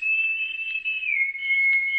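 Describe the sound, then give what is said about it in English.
A high, clear human whistle answers in the dark, one steady sustained tone lasting about two seconds, dipping slightly in pitch midway before settling again. “Then, almost like a delayed echo, there was an answering whistle.”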